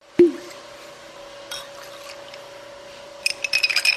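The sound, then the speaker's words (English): Ice clinks in a glass as a cocktail is stirred at a distillery. A sharp tap comes at the start, then near quiet over a faint steady hum, then a quick run of bright clinks at the end. “That's the sound of a Made in Haines cocktail being stirred at the Port Chilkoot Distillery.”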